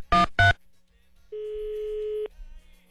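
A telephone tone: one steady, mid-pitched electronic beep held for nearly a second, preceded by two short, loud bursts, with no voices over it.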